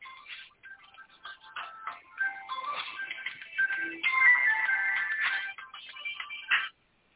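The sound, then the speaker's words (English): A mobile phone ringtone plays a bright, melodic electronic tune of quick tonal notes at moderate volume. It runs for about six and a half seconds before stopping abruptly. “No, that's the phone. That's my phone. I'm going to turn it off.”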